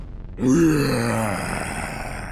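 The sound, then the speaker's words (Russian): A deep, groaning roar from a fire-breathing blue demon rises abruptly after a moment of quiet. It holds as one long, sustained growl with strong low harmonics, then slowly fades while still sounding. “Едва я успел дочитать, как морда синего демона начала дрожать, и он вдруг взревел.”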